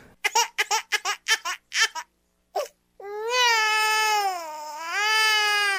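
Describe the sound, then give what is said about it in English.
A crybaby sound effect of a baby: several short choppy laughing or babbling bursts, a pause, then a long, loud wailing cry whose pitch wavers up and down. “Start the crybaby sound effect.”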